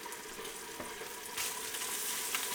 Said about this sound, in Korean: 물을 끓인 다음 먹을 거고 천천히 볶아줍니다. 천천히 볶아요. 천천히.